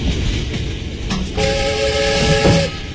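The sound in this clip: A passenger train travelling from Shanghai to Shaanxi rumbles steadily, with a brief horn tone sounding midway over the continuous rolling noise.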